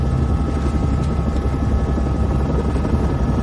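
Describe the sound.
A helicopter flies over a river, its rotor and engine producing a constant, loud, throbbing low drone with a dense buzzing hum and no pause or voices throughout.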